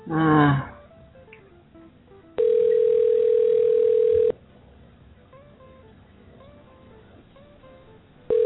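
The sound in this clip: Ringback tone of an outgoing telephone call heard over a narrow phone line: a steady, droning tone lasting about two seconds, a long pause with faint line noise, then the next ring just beginning.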